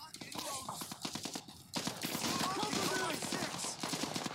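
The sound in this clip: Video game gunfire crackles in rapid automatic bursts, a dense stream of shots that thickens after a brief lull, while voices talk over the action.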